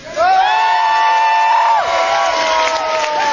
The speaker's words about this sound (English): So let's have a real cheer for the CCB.